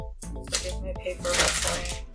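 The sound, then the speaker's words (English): Sheets of paper rustle and crinkle as someone searches through them, a soft, continuous scratchy shuffling with a low steady hum beneath. “Hold on. Here's my paper rustling.”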